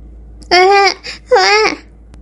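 A small child suddenly starts crying: two loud, wavering wails with a brief softer sound between them.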